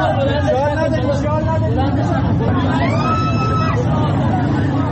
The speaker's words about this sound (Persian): این صدای ویدیویی است که در شبکه‌های اجتماعی منتشر شده از اعتراضات شب گذشته.